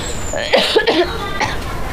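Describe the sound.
Coughing caused by cigarette smoke, with a few short, rough bursts clustered near the middle at moderate loudness over a noisy background.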